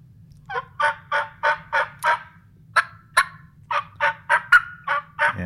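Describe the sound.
Turkey call yelps from a hunter's call, muffled and aimed by hand during spring turkey hunting in Arizona. Many short, raspy, evenly spaced yelps come in a few runs separated by brief pauses.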